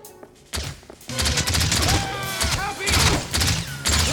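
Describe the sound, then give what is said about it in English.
Gunfire in a video game, rapid bursts of shots and heavy thuds packed densely together, loud and continuous after a quieter opening half-second, layered with other busy game sounds. “Who is that shooting at me?”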